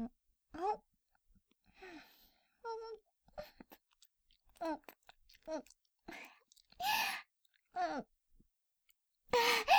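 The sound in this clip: Someone chewing food while being fed, soft, quiet, irregular chewing broken up by hummed, murmuring vocal sounds and a few breathy bursts.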